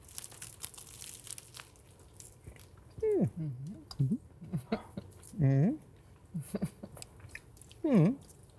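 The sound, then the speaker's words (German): Someone chewing an overly large bite of hand-held food, with faint wet squishing and smacking interrupted by several muffled, voiced hums and grunts made with a full mouth. “Ich hab zu groß abgebissen. Ekelhaft. Ekelhaft. So, jetzt habe ich den Mund fast leer”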